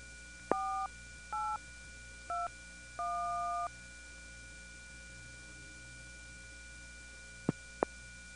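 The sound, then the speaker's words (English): Touch-tone dialing on a party telephone line: four separate dual-tone beeps, the last held longest, over a steady low line hum. A pause follows, then two sharp clicks as the caller hangs up. “That's somebody connecting to the line after dialing the exchange code, then dialing the last four digits of the number, not realizing they're on the line, and then hanging up after not hearing anything.”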